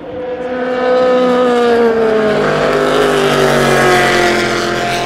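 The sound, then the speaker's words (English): Racing cars lapping a circuit at high speed, the fastest near 322 km/h, produce a continuous loud engine roar with strong, slowly falling tones. The roar lasts throughout with no talk. “I'm just going to listen to the cars for a few minutes. Now, the fastest cars are lapping at what, 322, something like that.”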